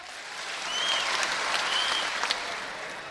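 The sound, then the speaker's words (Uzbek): Soft clapping and cheering from an audience rehearsing an applause cue, a steady patter of hands that swells slightly in the middle and carries on evenly to the end. “O'ng qo'limni yuqoriga ko'targanimda qiyqirib qarsakcha olasizlar, tushirganimda ayol erkak baravar kulasizlar. Shunda hammamiz ishimiz yaxshi bo'ladi. Repetitsiya.”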